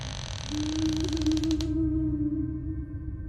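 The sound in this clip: A wooden door creaks shut with one drawn-out, low-pitched groan lasting over a second. Scratchy mechanical texture accompanies it, then fades, leaving a quiet low rumble.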